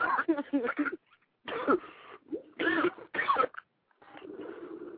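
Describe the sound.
Harsh coughing and throat clearing from someone who has just inhaled from a blunt, several rough bursts broken by short pauses, with people talking between them at a fairly low level.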